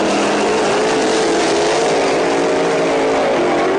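Drag racing cars launching off the line at the green light, a loud, continuous engine roar with a steady, buzzing tone throughout.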